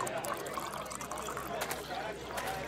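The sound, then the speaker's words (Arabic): Wine pours in a steady, continuous trickle of liquid, at a moderate level with no clear breaks. “صب لي من الخمر حتى لا أعرف أنه خمر.”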